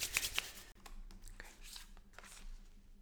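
A deck of archetype cards is spread out by hand: a couple of bright flicks, then soft, quiet rustling and sliding scrapes of cardboard.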